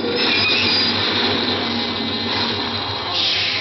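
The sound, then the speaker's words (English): Subway train wheels squeal as the train brakes to a stop, a sustained high metallic screech over a steady rumbling roar that holds loud and unbroken throughout. “The subway stopped. More people got on.”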